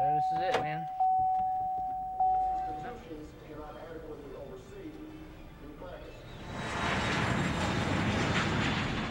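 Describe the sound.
Airplane noise at Laredo International Airport: a broad, steady roar swells in over the last few seconds. Before it, people talk, and a plain electronic tone sounds briefly a few times at the start.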